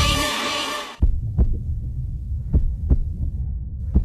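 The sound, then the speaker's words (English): Heartbeat sound effect representing a stressed shop assistant's heart after being yelled at. A loud, bright burst cuts off, then three low, thumping lub-dub double beats pound over a steady hum. “This is the sound of a shop assistant's heart rate after they were yelled at”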